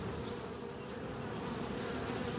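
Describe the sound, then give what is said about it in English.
Honeybees buzzing in two backyard beehives on a back deck: a dense, steady, droning hum that holds at an even loudness without a break, with no voices. “That's the sound of the two beehives on my back deck.”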